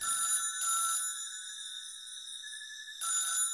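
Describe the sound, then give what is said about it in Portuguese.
A telephone rings inside an apartment in a residential building, its electronic ring sounding in short bursts, then a long pause, then another burst. “No próximo andar, novamente, quando você passa na frente de um dos apartamentos, o telefone toca.”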